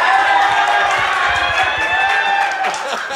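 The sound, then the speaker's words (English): Crowd cheering and clapping greets a surfer after a CT win, a loud, sustained roar of voices and whoops that eases slightly toward the end. “That's what it's like to get cheered after a CT win, brother.”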